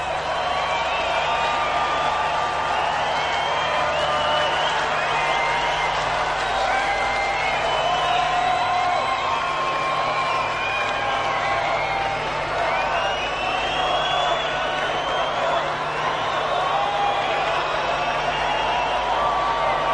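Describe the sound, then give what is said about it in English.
Large outdoor festival crowd at Glastonbury's Pyramid stage waiting for an encore: a steady roar of many voices, with scattered whoops and whistles rising above it, continuous throughout. “the sound you hear is the expectant Pyramid stage audience waiting for an encore”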